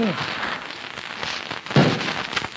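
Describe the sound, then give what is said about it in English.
A hatchet chops into a small splintered fir tree in the snow to dig out a rifle bullet. A few sharp, dull blows stand out over a steady noisy background. “Let me have the hatchet there in your belt. I want that bullet.”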